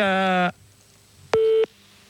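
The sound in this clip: Telephone line tone while placing a call: a steady, buzzy beep lasting about half a second, a short silence, then a second, slightly shorter beep. No talking.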